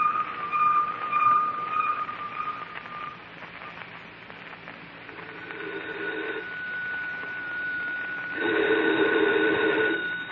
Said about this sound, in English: Oh, this wire photo machine. We stick a picture on it, and a minute later, some guy in Washington takes the same picture off his machine.